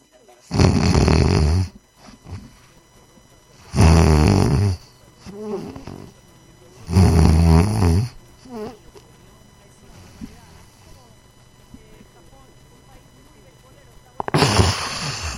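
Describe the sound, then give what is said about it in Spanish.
A voice imitates snoring as in sleep apnea: three loud, rasping snores in steady rhythm, then a long near-silent breathing pause before another loud snore bursts in at the end. “Y luego, el otro es que en lugar de esa exhalación profunda que hiciste, viene un ronquido más fuerte así, que rompe la apnea.”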